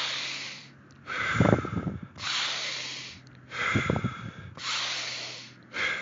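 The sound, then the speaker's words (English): Forceful breathing in through the nose during a breathwork exercise of about thirty rapid breaths, heard as a few loud, hissing, snorting inhalations in a steady rhythm, alternating with softer airy exhalations. “And you breathe in through the nose.”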